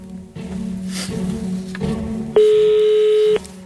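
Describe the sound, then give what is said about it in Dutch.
A telephone call is being dialled: low droning line tones give way to a single steady, bright ringing tone that lasts about a second and then cuts off. “Dus heb ik even gebeld met degene die toen de advocaat was van Marlies en Lisa.”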